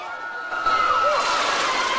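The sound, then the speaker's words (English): Water splashing and churning after a person is thrown from a ship's plank, with a quieter lead-in before a sudden rise into continuous sloshing, while a thin steady tone runs underneath. “He carries her onto the plank and throws her into the water.”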